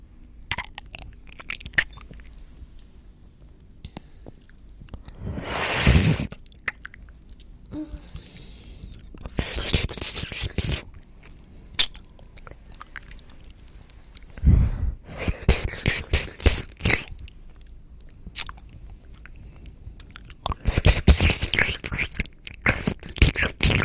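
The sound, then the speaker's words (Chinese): Someone eating and chewing food, with intermittent bursts of crunching and chewing separated by quieter stretches and soft whispery mouth noises. “既然你这么诚心实意的让我吃，那我就吃给你看。”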